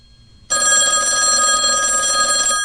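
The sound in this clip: Telephone ringing on an outgoing call: a loud, steady ring starts abruptly about half a second in and carries on unbroken to the end, with nothing else over it.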